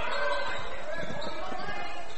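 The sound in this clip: A basketball is dribbled on the court during a women's game, with several dull, rhythmic bounces under steady crowd noise and a commentator talking.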